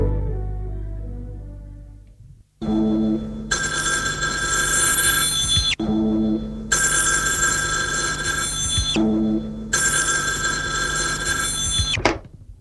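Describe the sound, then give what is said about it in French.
Telephone bell ringing for an incoming call: three long, loud, bright bursts of metallic ringing separated by short pauses, after a brief low opening sound. “Elle reçoit un appel téléphonique.”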